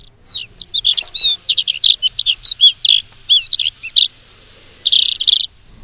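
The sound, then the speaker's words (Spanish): A bird calls in rapid, high-pitched chirps and warbling phrases, loud and clear against a quiet background, then pauses briefly before one last burst. “vamos a escuchar nuevamente el sonido de ese ave que hemos traído para hoy.”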